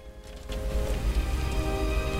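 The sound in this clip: Torrential rain pours over a trench full of soldiers as a dense, unbroken hiss with a heavy low rumble. Faint steady tones sit beneath it, and no one speaks.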